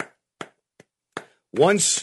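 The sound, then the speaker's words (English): Sparse polite golf-style applause: four isolated, sharp claps spaced evenly apart, quiet and alone, followed by a voice starting to talk. “let's give him a round of golf applause.”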